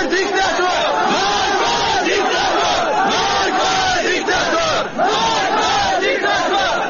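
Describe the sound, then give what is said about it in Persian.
A large crowd chants protest slogans in unison at a funeral procession in Kurdistan, a loud, continuous roar of many voices with rhythmic surging shouts throughout. “بر اساس این فیلم ها شعارهای مرگ بر دیکتاتور نیز از سوی شرکت کنندگان در مراسم تشییع سر داده شد.”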